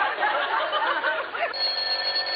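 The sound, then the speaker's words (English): A telephone bell rings with a steady, bright tone that comes through clearly in the second half of the short clip, after a busier stretch of sound. “Now, who is that, I wonder? Hand me the phone, will you, Rochester”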